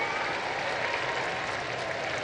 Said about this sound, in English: Big round of applause goes up